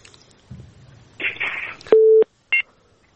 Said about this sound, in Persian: فکر کنم که تماسشان قطع شد، یک تماس دیگر را میگیریم.